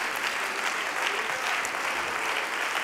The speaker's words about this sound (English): Why don't you give a hand clap of praise to the Lord for the apostolic leadership